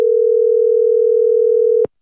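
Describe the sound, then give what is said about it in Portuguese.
A telephone tone on a call to a mobile phone: a single steady mid-pitched tone held for nearly two seconds, then abruptly cut off. “O telemóvel para o qual ligou encontra-se perdido.”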